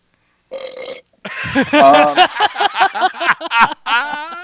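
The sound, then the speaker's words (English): A long, loud, rumbling burp at a beer-drinking hangout stutters through a rapid run of pulses for about three seconds, after a shorter, separate sound at the start. “I got so many burps here fucking flagged.”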